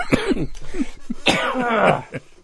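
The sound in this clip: Coughing and throat clearing from a person who has choked on inhaled beer foam: a run of harsh, raspy bursts of uneven length, some with a strained voiced tone, with no talk.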